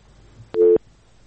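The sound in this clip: One short telephone busy-signal tone sounds after a caller's line drops. It is a loud, steady low beep lasting about a quarter second, alone against a quiet background.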